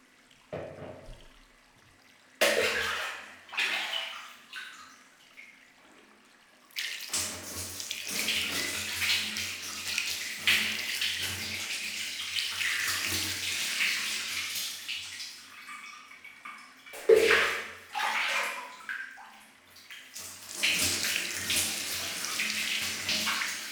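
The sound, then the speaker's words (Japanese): Rinsing water poured over a person being bathed, splashing down in several long pours broken by short pauses, loud and steady throughout. “じゃあお流ししますね。目をつむって軽く下を向いてください。”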